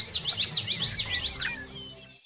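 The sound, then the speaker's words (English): Birds singing in a dawn chorus just before sunrise: a quick run of bright, high chirps, each sweeping downward, repeated in a steady rhythm before fading out. “The Dawn Chorus. Just before sunrise, birds begin to sing. One by one, then all together,”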